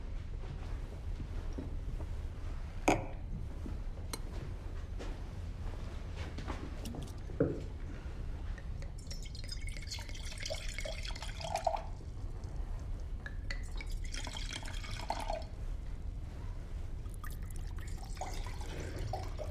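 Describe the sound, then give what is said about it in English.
Wine poured from a bottle into glasses at a meal: liquid trickles and splashes in a couple of stretches over a constant low background noise, with a few small knocks. “He sets the glasses next to them and pours the wine.”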